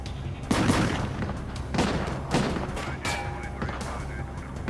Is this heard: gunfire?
yes

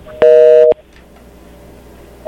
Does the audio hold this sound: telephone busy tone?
yes

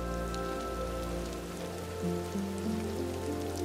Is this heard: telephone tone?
no

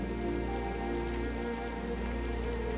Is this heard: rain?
yes

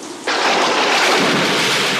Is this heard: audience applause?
no

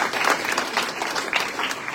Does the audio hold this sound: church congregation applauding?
yes

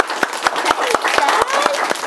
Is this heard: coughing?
no

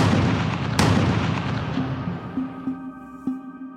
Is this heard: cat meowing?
no

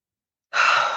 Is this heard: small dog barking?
no

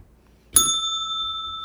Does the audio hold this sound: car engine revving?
no

